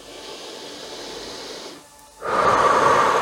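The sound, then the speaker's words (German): Breathing in and out during a guided relaxation, heard as soft, airy breath noise: a long gentle breath, a brief near-silent pause, then a louder, fuller breath, with no talking. “Lass uns nun gemeinsam ein- und ausatmen.”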